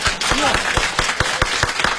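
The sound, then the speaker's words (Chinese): An audience claps during a Beijing comic dialogue show, a steady run of many sharp, evenly spaced claps. A voice is heard briefly near the start. “我看大家得鼓鼓掌，祝贺您旗开得胜啊！”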